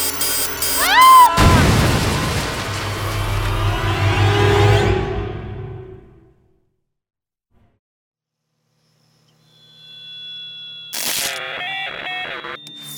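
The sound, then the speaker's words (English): A robot named Hermione exploding: quick rising electronic warbles give way to a loud burst that decays over several seconds, then a few seconds of silence, then clustered electronic tones. “Oh no, minor setback, right? Hermione exploded.”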